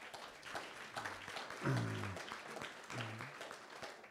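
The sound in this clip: Faint applause from a church audience welcoming a bishop as a guest, soft and scattered throughout, with brief voices rising over it partway through.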